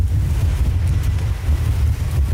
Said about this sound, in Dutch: ook al schijnt het zonnetje heerlijk op deze maandagochtend, het waait ongelooflijk hard